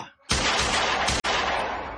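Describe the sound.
Rapid gunfire as bullets are emptied into a body: a loud, sustained burst of shots, a split-second break, then a second burst that gradually tails off.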